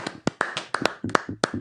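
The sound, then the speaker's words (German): Applause from a couple of people celebrating a first piece of fan mail: a scattered, uneven run of sharp, fairly quiet hand claps with small gaps between them. “Applaus, würde ich sagen.”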